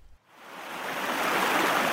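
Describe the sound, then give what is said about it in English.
Rushing water of a river current flowing toward the sea, carrying tiny bits of broken rock. A steady, broad hiss-like rush rises from a brief quiet start and then holds evenly at a moderate level. “We're in one of the rivers that leads to the sea, and we can see tiny bits of broken rock being carried along the current.”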